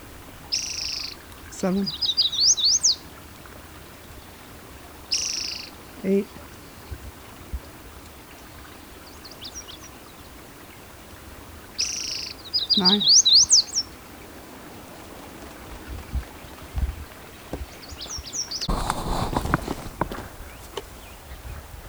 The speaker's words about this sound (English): yellow warbler singing